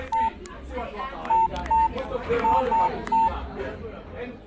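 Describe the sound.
Several sharp touch-tone beeps of a telephone number being keyed in, each a short steady electronic tone at uneven intervals, heard over a low background of voices and murmur.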